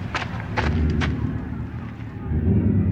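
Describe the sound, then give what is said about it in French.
Fire set alight on a pyre for a burning at the stake: a low, roaring rumble with a few sharp crackling bursts early on, easing slightly before swelling again near the end. “On met le feu.”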